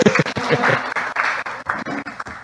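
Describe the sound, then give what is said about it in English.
Audience applause at a church gathering as a pastor is welcomed up to speak, a brief, fluttering patter of clapping that rises and dips in a few uneven waves. “So if you'd all give him a round of applause, I'll have him come up here.”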